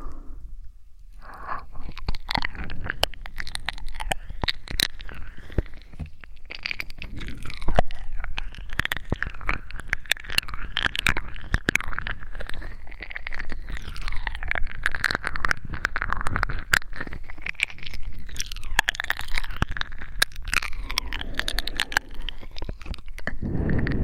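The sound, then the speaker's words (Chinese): Someone eats and chews food close up: continuous crunchy bites, wet squishing and smacking mouth sounds, with many small crisp clicks running throughout at a fairly even level. “真的好好吃啊，主人，怎么吃都吃不够呢？”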